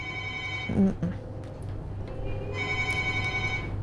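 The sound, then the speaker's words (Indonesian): A telephone rings with an incoming call in two bursts of bright, steady electronic trilling, separated by a short gap that holds brief low thuds and noise. “Sudah masuk satu telepon.”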